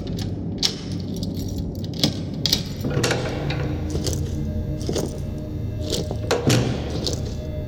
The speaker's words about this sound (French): Ouvrez la cellule. Je dois parler aux prisonniers.